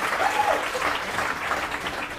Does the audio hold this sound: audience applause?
yes